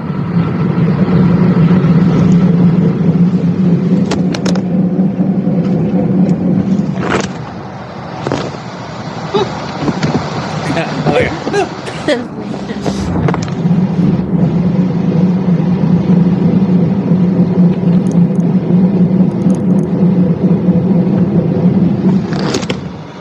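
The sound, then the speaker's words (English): A car with a clunking fault driving forward slowly at about 5 to 10 mph, its steady low engine drone broken in the middle by a cluster of sharp knocks and clunks. “So you're going to play the sound of your car and the noise it's making for us right now.”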